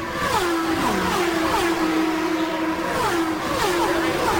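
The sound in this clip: Race cars roar past one after another in single file during the opening laps of an oval race. Each engine note drops in pitch as it passes, over a steady, loud drone of more cars.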